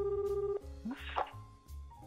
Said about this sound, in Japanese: 今ちょっとね電話をしますね。